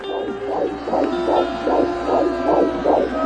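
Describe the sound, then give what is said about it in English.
Heartbeat of a nine-week-old fetus: rapid, rhythmic whooshing pulses, about eight beats in just over three seconds, steady and fairly loud over a continuous low hum. “That's a nine week old fetus's heartbeat.”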